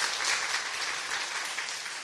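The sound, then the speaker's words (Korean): Brief, lively clapping from a church audience welcoming newcomers, a dense burst of many hands that eases off slightly toward the close. “잠깐 일어나시면 우리 박수하겠습니다. 환영합니다.”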